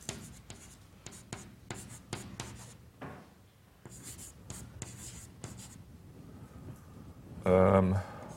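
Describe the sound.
Writing strokes during a mathematics lecture: many short, scratchy strokes in an uneven rhythm, ending with a louder, denser burst near the close.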